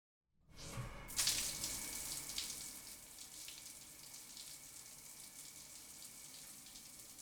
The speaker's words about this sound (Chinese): 还是用冷水冲洗一下吧，让自己冷静冷静